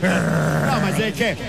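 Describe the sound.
A voice imitates a pitbull's growl in a sustained, low, rumbling snarl that sounds rather listless. It holds steadily at first, then breaks into rougher, more voice-like bursts near the end.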